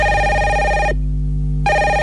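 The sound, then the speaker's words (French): A telephone rings with a steady, bright electronic tone that cuts off for a moment, then resumes; there is no talking. “En plus, il y a votre téléphone qui sonne.”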